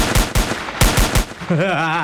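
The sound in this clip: Burst of gunfire: several sharp, loud shots in quick succession, arriving in two close groups, followed by a steady tonal sound.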